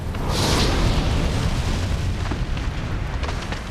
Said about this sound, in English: In slow motion, an erupting volcano explodes with red-hot lava, then churning bright orange molten rock.